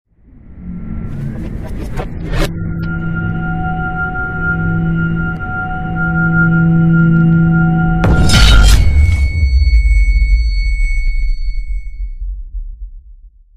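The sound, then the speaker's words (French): Science-fiction particle accelerator powering up: deep rumbling hum with sustained droning tones, a sharp crashing burst partway through, then thin, shrill high tones ringing over the low vibration before everything fades out. “l'accélérateur de particules s'active. Les données nominales s'affichent sur les écrans de la console. Une légère vibration et un son légèrement strident deviennent perceptibles.”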